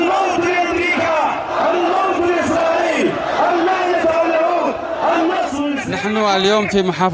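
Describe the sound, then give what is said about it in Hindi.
A large crowd of protesters in the streets of Yemen chants slogans in unison, a loud, dense mass of voices that rises and falls in rhythmic waves without a break. “मस्जिदुल Aqsa के समर्थन में आई भारी भीड़ America, Israel और अली सऊद के खिलाफ नारे लगा रही है।”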